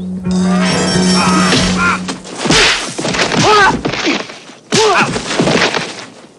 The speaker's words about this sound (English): With a flurry of leaping kicks, he knocks them all out.